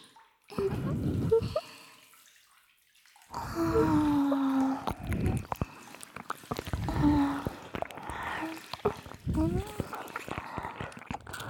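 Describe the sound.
Water splashing and sloshing in a bathtub as someone is washed, with scattered drips and a voice speaking intermittently over it.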